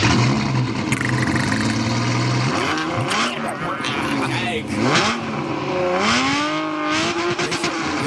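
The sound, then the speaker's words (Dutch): A Ferrari Testarossa engine revs loudly and continuously, its pitch swinging up and down in several sweeps between steadier stretches. “En ik heb nog even wat dat oude geluid van de Testarossa.”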